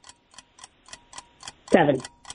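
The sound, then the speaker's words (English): A quiz timer ticks in steady, evenly spaced clicks of moderate volume. A short burst of voice briefly rises over the ticking near the end. “There is a timer involved. Jen's going to write down her answer as you're answering to make it fair, Lori. So here is your timer.”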